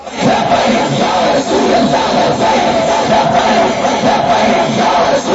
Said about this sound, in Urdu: تسی اجے سوچتے رہتے ہو نعرہ کیویں لانا ہے، ہن نعرہ لاؤ.